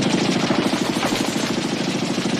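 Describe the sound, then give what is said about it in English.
Sustained rapid gunfire as soldiers shoot in every direction into a jungle, a dense, unbroken stream of loud overlapping shots with a steady fast rhythm and no pauses. “The American soldiers fire toward Bill and in every direction into the jungle.”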